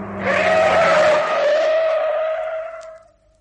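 Tires squeal as a car skids, its steering failing from a slackened nut on the track rod. A loud, sustained screech sits over a steady engine drone, then fades out toward the end.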